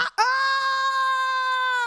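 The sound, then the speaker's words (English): A man's voice gives a long guttural yell imitating a soccer announcer's goal call. After a brief breath, it holds one sustained, loud, flat-pitched and strongly voiced note for well over a second. “You give it a big old guttural yell, and it's the catch-all.”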